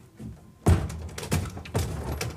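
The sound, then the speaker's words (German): A door opens in a dark place with one loud, low thunk, followed by a few softer knocks and shuffling sounds. “Und mach die Tür doch am Ende auf.”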